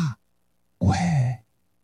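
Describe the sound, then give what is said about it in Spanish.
A voice imitates breathing: a short breathy puff, a pause, then a longer soft, sighing exhale with a faint voiced tone, fairly quiet and alone. “¿Y cómo suena la respiración? Sería algo así como ya,”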